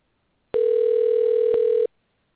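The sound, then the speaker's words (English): Telephone dial tone while a call is placed: one steady, even tone of a little over a second that starts and stops abruptly, heard alone with no voices. “I'm getting ready to call the brother up in here. I got Brother Montu. He'll be jumping on with me at least carry on. Let me give him a dial.”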